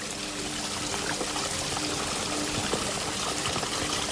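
Small waterfalls trickle in a forest among ferns, trees and moss, a faint, continuous splashing rush of water with no pauses.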